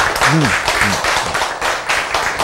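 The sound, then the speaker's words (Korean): An audience claps in a regular, rhythmic beat, loud and steady, with a brief voice rising above the claps near the start. “자, 그래서 여러분이 지금 박수를 많이 쳤습니다. 그렇죠?”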